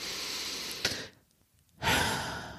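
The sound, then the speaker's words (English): A deep breath: a long, steady inhale, a short silent pause, then a louder, breathy exhale. “Today, I want to start by taking a collective deep breath.”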